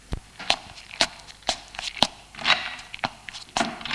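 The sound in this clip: Footsteps of a woman leaving a bedroom and going down the stairs of a house. Sharp, evenly spaced treads fall about every half second at a steady, unhurried pace over a quiet background.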